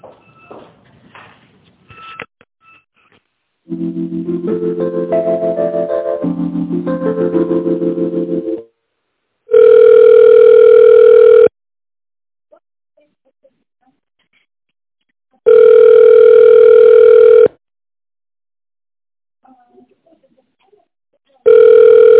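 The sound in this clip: Telephone ringback tone as a call is being transferred to a specialist: a brief run of stepped electronic tones, then two steady buzzing tones of about two seconds each separated by silence, with a third beginning at the end.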